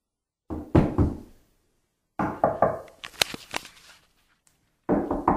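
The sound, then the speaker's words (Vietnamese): Hard, urgent knocking on a locked door: loud bursts of rapid, heavy thuds with short gaps between them and no voices. “Cửa đã bị khóa rồi, kéo như thế nào cũng không ra. Cô gấp đến nỗi đổ đầy mồ hôi, gõ cửa thật mạnh.”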